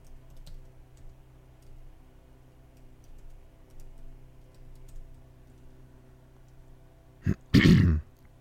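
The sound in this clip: A person clears their throat near the end: a short burst, then a louder rasping rumble, after a long quiet stretch with scattered soft ticks.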